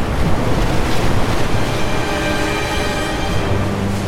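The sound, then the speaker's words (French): Rough, agitated sea under heavy weather: a loud, continuous roar of churning waves with blustery wind noise, with no distinct breaks. “La pluie crache, la mer est agitée.”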